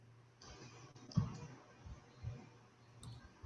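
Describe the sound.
A computer mouse clicks faintly on a downloads tab, giving a few sharp, sparse taps over a quiet, low hum.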